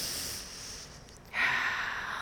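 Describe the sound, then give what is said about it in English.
A deep breath taken during a calm moment: a breathy rush of air that stays soft at first, then swells into a louder, airier stream for its second half. “And when we remember to breathe, let's breathe.”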